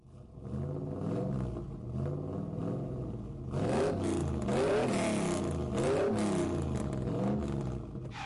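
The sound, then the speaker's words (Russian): A car driving slowly through the night in Paris: a steady rumbling engine whose pitch wavers up and down in repeated swells, growing fuller and louder about halfway through, with no voices. “«Этот автомобиль совсем не едет. С такой скоростью впору сопровождать похоронные процессии!» — раздраженно думал Николя”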